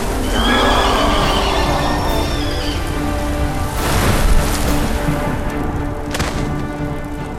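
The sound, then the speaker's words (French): Riders' horses neigh and whinny in several high, harmonic calls over a steady rushing hiss, with faint hoof clatter underneath. “Les cavaliers ont disparu.”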